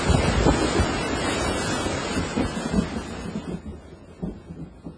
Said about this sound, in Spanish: Empezó a llover nomás para que me empapara y duró 3 pinches minutitos.